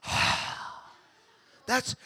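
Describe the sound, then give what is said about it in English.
A group takes a deep breath, a long, breathy exhale that starts loud and fades out, followed by a short burst of speech. “the word means breath. Everybody take a deep breath.”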